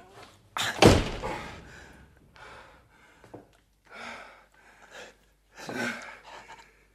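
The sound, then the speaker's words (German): A door is rammed and slammed shut with one loud, heavy bang, followed by a few quieter, scattered sounds. “Ich ramme die Tür zu.”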